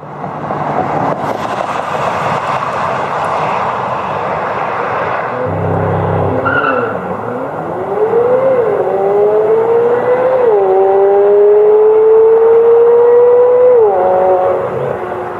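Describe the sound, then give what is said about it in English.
A high-revving sports car engine during acceleration testing: loud, broad mechanical roar and a whining engine note that climbs from around the midpoint, then holds high with brief shifts in pitch. “acceleration testing. And listen to some of this and just think Ferrari, Ferrari 488, Ferrari, 458. Think of some of this high winding 9,000 RPM.”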